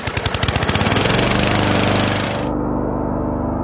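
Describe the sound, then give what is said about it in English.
A Bobcat zero-turn lawn mower engine runs with loud chugging pulses that quicken and merge into a steady, throbbing drone. “When you're on a Bobcat zero-turn mower, it's your time. Just you, your machine, and the job at hand.”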